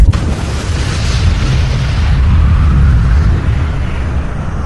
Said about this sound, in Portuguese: Eu vou apertar o botão senhor, vermelho. não!